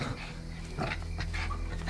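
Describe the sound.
A dog gives brief whimpering and yipping sounds, ending in a sharper, louder burst.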